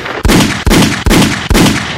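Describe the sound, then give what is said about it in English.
Four loud gunshots in an even rhythm, each a sharp blast with a short ringing tail, with no voices. “Let's cock a gun. Let's fire.”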